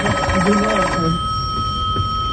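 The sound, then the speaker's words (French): A telephone rings on the direct line during a live radio show. Its steady ringing tone carries through the whole clip, with a brief voice at the start. “C'est vrai qu'il y a des gens qui appellent sur la ligne directe.”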